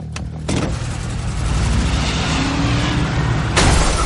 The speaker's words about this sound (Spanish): Un coche negro se estampa contra el Mustang. John levanta la cabeza furioso y da marcha atrás.